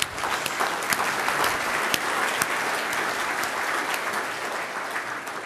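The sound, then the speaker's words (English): Audience applause welcoming a speaker onto the stage, a dense, continuous roar of many hands clapping at an even level, with a few sharper claps standing out. “I want us to welcome Mike. Let's give him a round of applause.”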